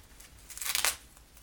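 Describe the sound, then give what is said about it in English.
Duct tape being cut from the roll, a brief rough rasping and crinkling burst that swells and fades within about half a second, quiet against a low background. “I accidentally messed up a piece of duct tape. Now we have to cut another.”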